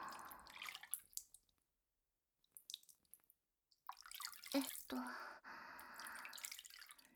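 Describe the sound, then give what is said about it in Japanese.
Soft splashes and trickles as hot water is poured over thighs, knees and feet. The water comes in quiet, uneven bursts with a short lull in the middle, then flows more steadily toward the end. “太ももにお湯をかけて、膝、足元、”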